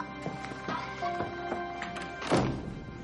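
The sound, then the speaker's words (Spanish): A door shuts with a single dull thunk near the end as someone leaves, heard over steady background music with a few faint knocks before it. “El juez se marcha cerrando la puerta y dejando a Vera morir ahorcada.”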